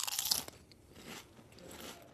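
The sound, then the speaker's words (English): Crisp crunch of biting into a Lay's reduced salt potato chip: a sharp, bright crackle at the start, then softer, quieter chewing crunches, all faint and with no talking. “I started with the plain old Lay's reduced salt chip. Okay. Tastes like a potato chip. And then sampled a reduced salt chip with crystal salt.”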